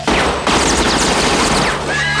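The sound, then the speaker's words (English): A gun goes off accidentally in loud, harsh bursts of gunfire, with sharp attacks giving way to a dense, noisy roar that lasts to the end. “He shoots accidentally.”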